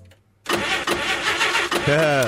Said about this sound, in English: You know what that sound is, don't you? That's the sound of the plane starting up in a few months' time.